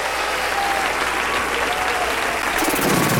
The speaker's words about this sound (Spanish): Aplaude la grandeza de nuestro rey.